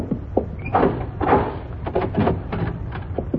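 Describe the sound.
A door being opened, with a few short knocks, clicks and scraping bursts of the handle and frame in an uneven sequence, moderately loud against a low background hum.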